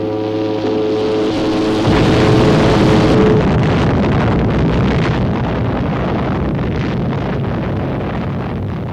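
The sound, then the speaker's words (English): Roaring blast sound effect made to match film of a nuclear bomb test, with a steady low tone at first giving way to a loud, dense, rumbling roar that sustains to the end. “so what you're hearing is what the sound people who saw the footage thought would match the blast.”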